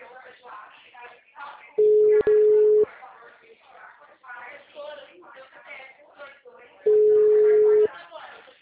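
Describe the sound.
Two steady mid-pitched telephone ringback tones, each about a second long and spaced several seconds apart, sound on an unanswered phone call, loud over continuous muffled, telephone-thin voices talking underneath.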